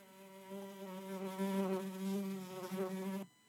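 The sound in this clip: An insect buzzes in a steady, loud, low-pitched drone with a slight waver. It holds for about three seconds, then cuts off abruptly near the end, alone with no voices.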